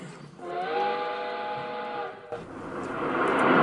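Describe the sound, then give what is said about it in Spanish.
A night express train blows a sustained multi-tone whistle for about two seconds, then a steady, swelling rumble of the train running along takes over, with no voices. “logrando llegar desde Nueva York hasta París por un tren submarino. El expreso de la noche.”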